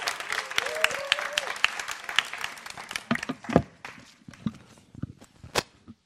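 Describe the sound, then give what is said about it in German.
Applause from an audience at a church teaching event: dense, lively clapping that gradually thins into scattered individual claps. “mal einen kräftigen Applaus.”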